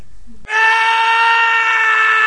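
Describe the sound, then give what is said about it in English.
A man's scream as he is walled in with bricks, bursting in abruptly after a brief near-silence and holding loud, harsh and steady in pitch to the end. “Fortunato screams as Montessori covers his space around him with bricks.”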